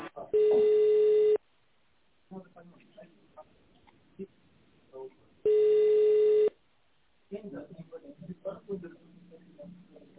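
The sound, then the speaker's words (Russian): A ringing tone sounds while a telephone call is forwarded: two long, steady mid-pitched tones of about a second each, separated by stretches of people talking. “Ваш вызов будет переадресован.”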